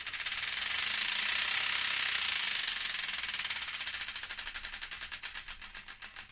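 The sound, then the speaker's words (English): Prize wheel spinning on a radio show, a dense rapid clatter of ticks that gradually slows into distinct, evenly spaced clicks as the wheel winds down, heard alone and fairly faint. “we've got to spin the Wheel of Destiny to find out which one”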